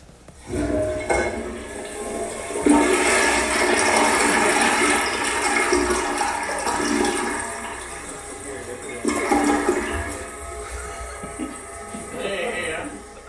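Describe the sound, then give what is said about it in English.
A toilet flushing: a loud rushing swirl of water that builds quickly, holds for several seconds and drains away, followed by a quieter gurgle and trickle as the cistern refills. “But that is the sound of a toilet flushing.”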